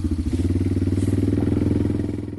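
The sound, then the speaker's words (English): A Yamaha four-wheeler ATV engine running while riding along a snowy road: a loud, steady, low drone with a rapid rhythmic pulsing throb that holds an even pitch throughout. “He's on his Yamaha four-wheeler to deliver medicine to a friend nearby.”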